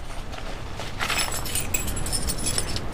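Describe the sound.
Keys jangle in a busy run of light metallic clinks and jingles that continues for about three seconds at a moderate level.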